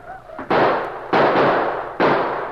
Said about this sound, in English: They reloaded and fired again and again, surrounding the post with a wall of hot lead.